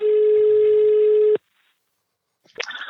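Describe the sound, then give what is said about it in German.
A telephone tone as a call is placed: one loud, steady, unbroken tone lasting over a second, then stopping abruptly. A short silence follows before a voice begins. “Lasst mal Toni Kroos anrufen.”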